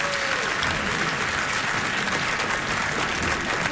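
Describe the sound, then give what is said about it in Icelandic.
Audience applause for a clarinet player after a live musical performance: dense, steady clapping that holds at a loud, even level for about four seconds, with no talking. “Gefum honum gott klapp.”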